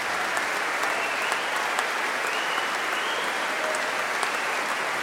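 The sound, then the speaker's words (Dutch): Audience applause after a concert performance of a Requiem mass: a dense, steady patter of many hands clapping evenly for the whole stretch, with no voices over it. “Applaus ook voor Lucille Perret op fagot.”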